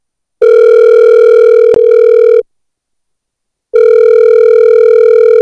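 A telephone rings with a steady, buzzing electronic tone in two long bursts, each about two seconds, separated by a pause of about a second. A brief click cuts into the first burst.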